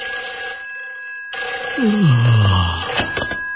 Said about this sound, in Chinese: 英国一家轮船公司的值班电话突然响起。